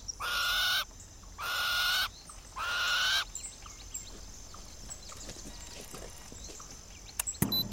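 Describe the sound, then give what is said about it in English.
Three loud, harsh bird calls in a remote open landscape near a forest, each lasting under a second and evenly spaced, followed by a quiet background of faint scattered bird sounds. “And listen to the birds chirping.”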